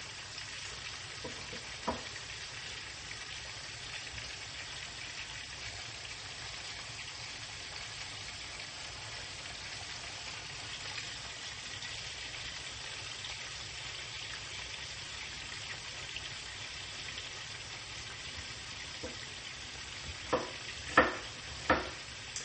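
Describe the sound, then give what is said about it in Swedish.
Chopped onion frying in a pan: a steady, dense sizzle runs throughout without talk, and a few sharper crackles pop out near the end. “Och medan jag kastar i löken, oj, ja, det blir lite djupare, men det är bra, det är som det ska.”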